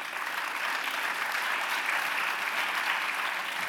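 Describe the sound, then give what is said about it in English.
An audience at a book talk about Robert Mueller gives steady, dense applause. The clapping is a continuous, even hiss of many hands with no talk over it, holding at a constant level throughout. “I worry that not everyone is clapping because some people are disappointed in what he did.”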